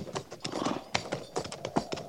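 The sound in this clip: Horses' hooves clip-clop steadily as riders move forward at an even pace, a quick rhythm of many hoofbeats with no voices.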